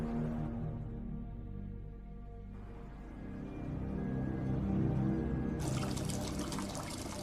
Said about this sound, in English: Outside, Riley washes her hair in a sink. She wrings out her hair and scrunches it in a towel.